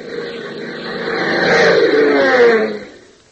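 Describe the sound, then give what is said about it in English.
A car engine races at full throttle, a roaring drone that builds to a loud peak, holds there, then fades away at the end. “Throttle wide open, Hop and Tank raced to Barstow, covering the distance in a little more than 20 minutes.”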